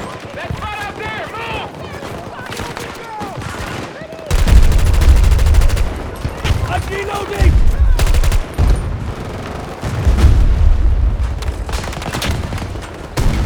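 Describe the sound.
Gunfire in a video game firefight, with rapid bursts of shots and heavy booming volleys that surge loudly at several points, as players talk between and over the shooting.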